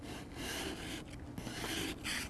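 Faint rasping of a scraper working at a hard deposit on a car, several short gritty strokes with brief pauses between them.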